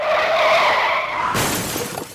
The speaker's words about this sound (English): you see yourself skidding towards the light post